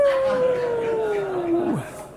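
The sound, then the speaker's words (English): A human voice imitates a dog howling: one long, wavering howl that glides slowly downward in pitch, then drops sharply at the end and cuts off. “the dog put one paw on the sick dog and began to howl, "Woo!"”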